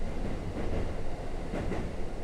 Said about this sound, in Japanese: 聞こえるでしょう。ガタンゴトン、ガタンゴトン、